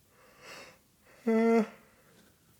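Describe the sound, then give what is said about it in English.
A person yawns with a soft breathy intake and then a short, steady voiced tone lasting under half a second. The sound is quiet overall. “Did you just yawn on air?”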